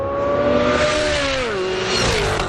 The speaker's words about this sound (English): At the General Motors Proving Grounds in Milford, Michigan, President Trump took in high-speed racing demonstrations